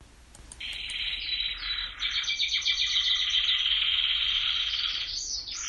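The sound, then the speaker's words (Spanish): Birdsong heralding dawn: dense, shrill chirping and twittering, mixed with a buzzing, insect-like trill, keeps up steadily and fairly loudly almost throughout. “Hasta que el canto del ave viene a recordarte que el día se acerca de nuevo.”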